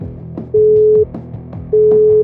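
Telephone tone heard while placing a call: two loud, steady mid-pitched beeps, each about half a second long and separated by a pause, over a quieter rhythmic musical background.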